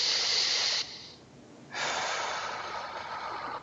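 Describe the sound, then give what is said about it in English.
A deep breath taken during a tapping exercise session: two long, airy rushes of breath separated by a short quiet pause, the second one longer and steadier, with no talking. “Okay, take a deep breath.”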